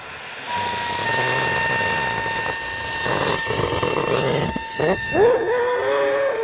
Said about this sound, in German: Ein Wetterballon wird mit Helium aus einer Gasflasche gefüllt.